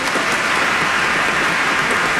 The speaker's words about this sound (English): yes, let's applaud you.